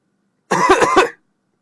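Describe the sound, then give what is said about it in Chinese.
A man coughs in one short, loud, harsh burst of a few quick coughs run together, alone in an otherwise silent clip. “皮二混咳嗽了两声，门开了。”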